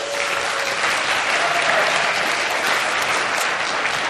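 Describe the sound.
An audience claps to welcome a speaker up to the stage, a dense, steady round of applause lasting about four seconds with no voices.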